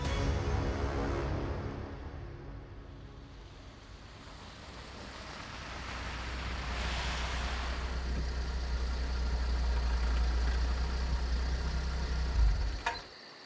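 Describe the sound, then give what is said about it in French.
A stolen Volkswagen Golf car engine idles as the car pulls up and parks outside a building in the early morning. It gives a low, steady rumble with a hissy wash over it, then cuts off sharply just before the end. “Youssouf se gare devant le bâtiment Prokofiev, au volant d'une Golf qu'il vient de voler”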